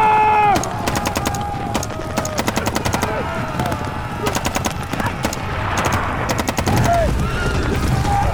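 Gunfire as armed riders head into battle: repeated bursts of rapid machine-gun fire crackle in volleys, mixed with heavy booms and a few brief tonal whines, loud throughout.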